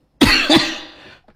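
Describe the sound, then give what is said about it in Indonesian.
Two quick, harsh coughs from a person in close succession, trailing into a fading breathy rasp and ending with a faint short sound. “Mohon maaf ya, bah saudara semua agak batuk ini. Terlalu semangat kayaknya.”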